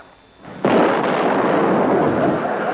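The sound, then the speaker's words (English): An explosion sound effect bursts in after a brief quiet lead-in, a sudden loud blast that spreads into a heavy, sustained rumbling roar lasting to the end. “You have exploded me. Where's my leg?”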